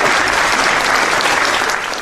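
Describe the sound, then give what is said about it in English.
Applause for a food-distribution group serving local towns, a loud, dense rush of many hands clapping continuously for the whole two seconds. “So big applause for them.”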